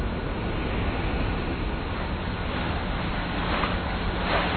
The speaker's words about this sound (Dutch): De sleepboot trekt op volle toeren en... Jawel. Ja, er komt beweging in.